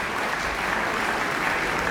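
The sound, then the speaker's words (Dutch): A concert audience at the Zeister Muziekdagen applauds a chamber performance. Dense, continuous clapping holds at an even, full level throughout, with no voices over it. “Ja, het is heel snel afgelopen nu, want het publiek weet nu dat ze kunnen klappen tot ze een ons wegen.”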